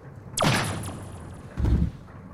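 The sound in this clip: A single gunshot rings out, sharp and loud, with a quick bright crack that tails off. About a second later comes a lower, duller thud.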